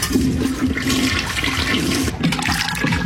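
A toilet flushes with a loud, steady rush of swirling water that fills the whole stretch, with no voices.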